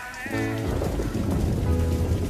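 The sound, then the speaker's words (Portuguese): Rain falls steadily outside as a dense, continuous hiss, mixed with the sustained tones of a funk music track. “Enquanto a chuva cai lá fora”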